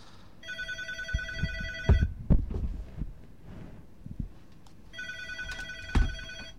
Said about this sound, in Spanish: Creo que tenemos una llamada, vamos a intentar meterla por antena.